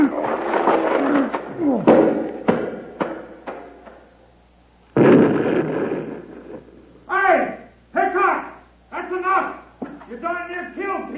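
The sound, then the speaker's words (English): Rocks rolled down a mountainside in a radio drama effect make heavy rumbling crashes and tumbling thuds in loud bursts, followed by shouting voices. “Come out with your hands up or we'll roll half the mountain down on you.”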